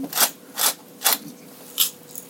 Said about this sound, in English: do quite a bit of grinding of fresh ground black pepper into my spice bowl here.